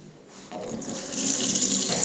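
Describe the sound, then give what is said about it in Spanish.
Running tap water as a child washes his hands at a sink: a steady hissing splash that starts after a brief quiet moment and continues evenly to the end. “me voy a lavar las manos”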